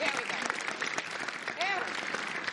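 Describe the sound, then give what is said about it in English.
Steady crowd applause, a dense, even wash of clapping that holds at a constant level throughout, with a voice briefly rising above it. “let's give Barney a big round of applause”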